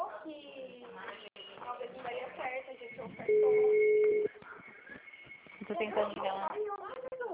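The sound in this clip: Phone ringing tone while calling a Santander bank branch: one long, steady, mid-pitched tone lasting about a second, with people talking before and after it.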